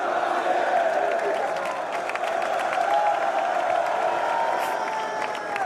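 Stadium crowd greets goalkeeper Lucas Chevalier, number 30, with a dense, steady roar of cheering and applause. The sound stays fairly even throughout, without a sharp swell.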